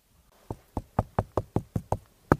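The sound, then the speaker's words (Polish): Knuckles knock on a hollow tree trunk nine times in a steady, fairly quick rhythm. Each knock is a resonant, woody tock with a short boomy ring. “Nawet jak się puknie tutaj w to drzewo, to... Takie rezonansowe właściwości. Jak... Ale też czujemy, jak już jednak jest pustawę w środku.”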